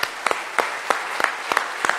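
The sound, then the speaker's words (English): A church audience claps together in praise: sharp, evenly spaced claps keep a steady beat, with the crowd's hands landing roughly in unison on each stroke. “Let's give God a good praise and thanks clap this morning”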